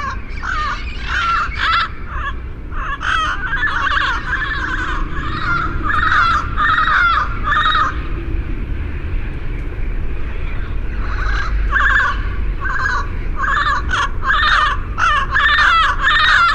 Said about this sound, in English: The parrots are endangered in Mexico, but this flock likely descended from escape pets that flew the coop. Jeff Rice took out his microphone and captured their yakking for the University of Utah Marriott Library, westernsoundscape.org.